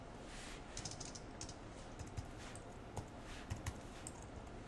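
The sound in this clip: Faint computer keyboard typing while commenting out code: scattered soft key clicks tapping irregularly over a quiet hiss.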